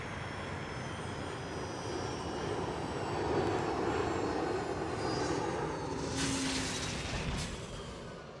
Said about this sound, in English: This is where we're landing.